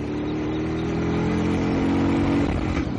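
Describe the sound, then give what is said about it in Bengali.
A motorbike engine roars as the bike speeds off, giving a loud, steady, low droning growl with strong harmonics that holds for about three seconds. “গো করে গর্জন করে একটা ধাক্কা দিয়ে bike ছুটতে শুরু করলো।”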